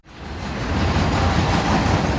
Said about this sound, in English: A passenger train passes Golden Road Brewery, a small beer producer and restaurant in the city of Los Angeles.